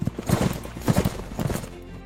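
Hooves clip-clopping as cavalry horses move at speed, each carrying a rider with a foot soldier mounted behind, producing many loud, overlapping hoofbeats in an uneven rhythm.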